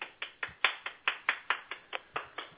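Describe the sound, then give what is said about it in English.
Rhythmic hand clapping, about a dozen crisp, even claps at a quick, regular pace, with no cheering or voices alongside. “Yeah, let's hear it from the live studio audience.”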